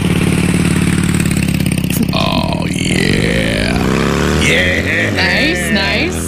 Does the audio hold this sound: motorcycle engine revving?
yes